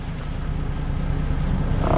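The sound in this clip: A car engine rumbles as the driver presses the clutch and tries to pull off, a steady low, throbbing drone that grows slightly louder toward the end.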